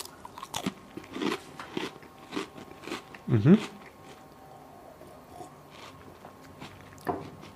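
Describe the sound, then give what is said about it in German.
Biting and chewing a butter speculoos spiced biscuit, heard as a run of short, crisp crunching and chewing bursts, with one louder crunch near the middle and softer crackles either side. “will ich mal aus wissenschaftlichen Gründen probieren, ob der Glöck auch mit Butterspekulatius schmeckt.”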